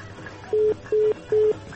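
Telephone keypad tones as a number is dialed: three short beeps at the same pitch, evenly spaced, clear over a faint background hum.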